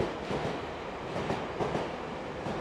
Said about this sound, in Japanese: これ電車の音でね眠たくなりますけれども頑張って